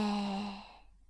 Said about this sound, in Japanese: 今度は無理やりにでもお腹が膨らむようにして深呼吸をしましょう。息を深く吸って吐いて。